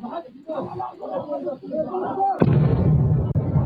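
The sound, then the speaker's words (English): Gunfire in dash cam footage of Hamas fighters: a man talks steadily at first, then a sudden loud blast cuts in, followed by sustained heavy rumbling noise that continues to the end. “Okay, so there's some shooting going on in the background.”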